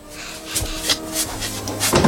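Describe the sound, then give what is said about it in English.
A door is being opened by someone whose hands are full: a few short knocks and clicks from the handle and latch, fairly loud, ending in a brief louder scrape. “Can one of you gentlemen open the door for me, please? My hands are full up to my eyes here. Well, go on, lad. Open the door.”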